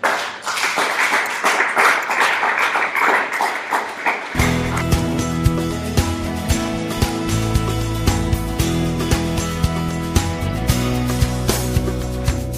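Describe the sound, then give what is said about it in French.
A church audience claps in dense, steady applause for about four seconds, then loud music with punchy drum hits and sustained tones takes over. “Que quelqu'un dise amen, amen et amen et acclame le Seigneur.”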